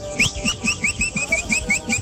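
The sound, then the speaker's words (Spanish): A person whistles a lively melody in a voice note, bright quick notes stepping up and down over a steady rhythmic thump of ranchera music underneath. “Ay, disfrutándose las rancheritas ahí con el silbidito clásico.”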